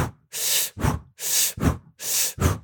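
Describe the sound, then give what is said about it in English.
A person demonstrates a breathing exercise while lying on a yoga mat. There are three steady cycles, each a long, airy, hissing breath followed by a shorter, sharper one, all fairly loud and evenly paced. “I just want you to do this breathing pattern with me.”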